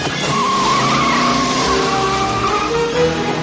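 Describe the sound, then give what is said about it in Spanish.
A car accelerating hard after starting, with a loud, steady engine roar and squealing tires that run unbroken through the whole clip. “Arranca, vamos. ¡Vamos, ponte en marcha! Da un cabezazo al volante. El coche arranca y Marty acelera.”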